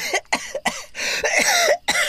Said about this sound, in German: öffnet die Augen und hustet